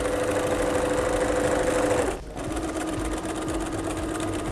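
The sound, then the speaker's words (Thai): A sewing machine stitches along the seam of a bag with a steady mechanical whirr, breaks off briefly just after two seconds, then resumes running. “จากนั้นเราก็ค่อยๆพับแล้วก็เย็บไปตามรอยของแนวกระเป๋านะคะ”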